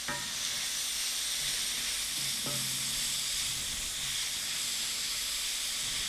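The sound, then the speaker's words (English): Garlic, about two teaspoons, sizzles in oil in a cowboy wok, a loud steady hiss of frying that holds evenly throughout with no talk. “2 teaspoons of garlic in there. You have to be careful with garlic because it will burn, and nobody likes burnt garlic.”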